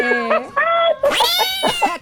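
A female cat meows repeatedly, several loud, drawn-out, whiny meows with bright, high overtones following one another in quick succession.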